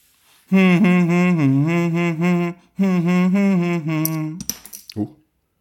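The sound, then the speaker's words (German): A short jingle played at the push of a button for a lifehack segment: two sustained melodic phrases of rich, wavering harmonic tones, then a few quick bright clinks before it ends. “ich muss hier das Knöpfchen drücken für den Jingle für die Klettis Lifehack-Ecke. Ich drücke okay. Jetzt das Knöpfchen.”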